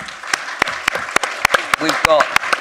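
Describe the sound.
Audience applause welcoming a speaker at a Battle of Ideas debate hosted by the Barbican Centre: a brief burst of steady clapping with sharp individual claps standing out, and a voice briefly heard over it.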